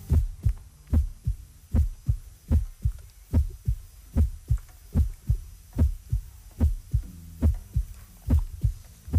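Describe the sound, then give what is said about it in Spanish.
Many human heartbeats thump in a steady, quick rhythm of low, muffled pulses, even in loudness throughout, over a faint low hum. “justo estos corazones que laten”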